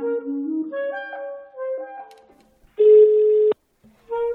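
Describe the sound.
A telephone call being placed: a run of short electronic beeps stepping between different pitches, then a loud, steady ringing tone that cuts off, with another tone starting after a short silence.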